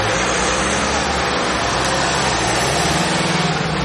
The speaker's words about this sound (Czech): Z areálu krajské záchranné služby v Ústí nad Labem právě odjíždí 5 vyřazených sanitek.